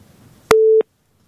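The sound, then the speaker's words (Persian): A single busy-signal beep sounds after a call-in phone call drops. The steady, mid-pitched tone lasts about a third of a second and cuts to silence, following a faint low murmur. “بازم تماس قطع شد.”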